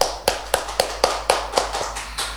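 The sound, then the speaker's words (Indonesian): Hands clap alone in a steady, evenly spaced series of single sharp claps, about four per second, each crisp and moderately loud. “Tepuk tangannya dulu dong.”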